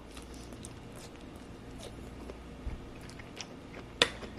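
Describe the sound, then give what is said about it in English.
Soft chewing of green beans from a Factor 75 meal, faint moist mastication with a few slightly louder bites near the end. “Let's test out the green beans first. I'm not the biggest fan of green beans, but they're not bad. But how do these taste?”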